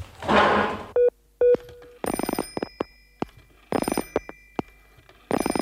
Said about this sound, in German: Nee, ich muss jetzt erstmal anrufen.